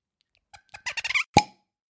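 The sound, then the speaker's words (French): A bottle of white wine is uncorked: a few squeaky twists of the cork build up to a single sharp pop. “J'ouvre une bouteille de vin blanc.”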